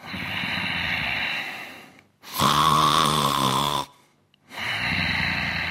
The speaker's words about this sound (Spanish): Voy a hacerle roncar. Y que eche un poco de babilla.